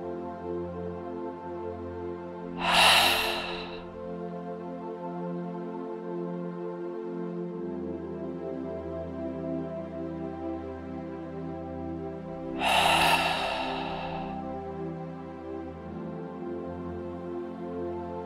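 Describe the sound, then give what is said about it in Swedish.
Deep breathing during a guided relaxation exercise, in through the nose and out through the mouth: two slow, airy breaths about ten seconds apart rise briefly above a soft, steady tonal music bed that continues throughout. “3 djupa andetag. In genom näsan och ut genom munnen.”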